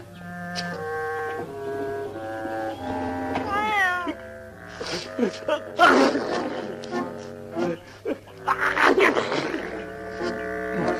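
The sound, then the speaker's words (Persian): Cat meowing: a series of drawn-out, wavering meows that climb and dip in pitch, mixed with other tonal sounds in the background. “ببخشون گربه، من به گربه حساسیت دارم.”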